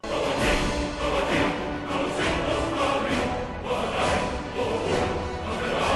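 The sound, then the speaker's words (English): Music from the video game Skyrim plays alone, dense and steady throughout, with no talk over it. “Because I got Dovahkiin in it, so I was like, okay. Yeah, that's Skyrim.”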